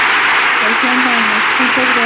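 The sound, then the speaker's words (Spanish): An audience applauds on a radio show, a steady wash of clapping running beneath a voice that speaks over it. “Este aplauso para ti, amiga.”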